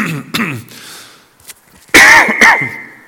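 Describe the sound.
Coughing, a few harsh throat-clearing coughs: one short burst early, then a louder pair near the end, with quiet gaps between.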